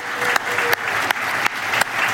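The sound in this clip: A church audience applauds to welcome a couple of close friends, a short, even burst of clapping punctuated by a few sharper accents at regular intervals.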